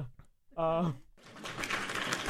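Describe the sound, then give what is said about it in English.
Applause sound effect played during a show: a brief voice is heard first, then a dense, crackling wash of clapping starts and keeps going at a fairly steady level to the end. “yay, some applause. That's all really long. Can you click on it to make it end?”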